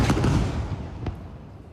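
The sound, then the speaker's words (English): Explosion from an Israeli fighter jet airstrike on a residential building near Al-Aqsa Hospital in Deir al-Balah, central Gaza: a loud, low, rumbling blast with a few sharp cracks, its roar slowly decaying. “This is the moment Israeli fighter jets struck a residential building near Al-Aqsa Hospital in Deir al-Balah in central Gaza.”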